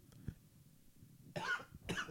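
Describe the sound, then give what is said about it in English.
A person gives two harsh coughs in quick succession after a nearly silent stretch. Both coughs are faint and short, with no talking. “you guys just heard me cough up a lung like I promised earlier”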